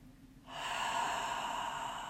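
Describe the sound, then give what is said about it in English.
A deep breath drawn in through the nose and let out through the mouth, heard alone as a steady, airy rush of air. It begins after half a second of near-silence and holds evenly to the end. “Let's take 3 deep breaths together through the nose, out through the mouth. Release the air you're holding.”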